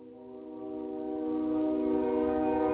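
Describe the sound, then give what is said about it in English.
A long, steady horn blast from a slow train at a rail crossing whose gate arms are malfunctioning; a sustained chord of tones that swells gradually in loudness, with no talk. “It's a very slow train. And apparently the arms on the tracks aren't working right, so I guess he thought he'd honk his horn incessantly”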